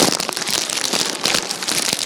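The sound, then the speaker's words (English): A voice imitates a candy wrapper being slowly unwrapped by someone at church trying to be quiet: a dense, continuous crinkling crackle that runs steadily for about two seconds with no pauses. “does anybody ever sit behind that one lady at church, takes like 5 minutes to unwrap a piece of candy when she's trying to be quiet? Like, it's like, just unwrap it.”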